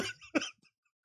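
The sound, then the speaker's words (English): Throat clearing, a single short, faint rasping burst that quickly dies into silence. “I did have a little cough, but that was mostly... That is mostly throat clearing.”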